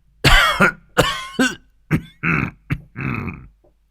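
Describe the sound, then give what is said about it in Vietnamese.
Dry, hacking coughs from an elderly man clutching his chest. A run of rough, throaty bursts of uneven length, some voiced and groaning, then silence. “Dứt lời, Hoàng lão gia ôm ngực ho khan mấy tiếng”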